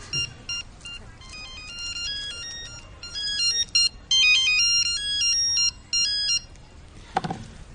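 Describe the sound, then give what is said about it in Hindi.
A mobile phone ringtone plays alone: bright, electronic melodic beeps in quick repeating patterns, starting and stopping several times over about six seconds, then falling silent apart from a short soft noise near the end. “हमारा phone बोला”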